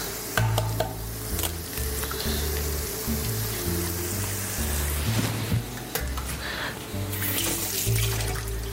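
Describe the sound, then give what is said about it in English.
Tap water runs while hands are rinsed in a kitchen during egg preparation, a steady, fairly faint splashing hiss that continues throughout with small irregular bursts. “A little rinse of the hand.”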